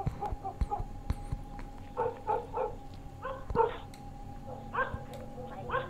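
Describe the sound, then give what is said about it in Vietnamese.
Dogs bark outside on the street at night in a series of sharp, fairly faint barks grouped in quick clusters over a low background hum. “Bỗng nhiên, ở ngoài đường, vang lên tiếng chó sủa.”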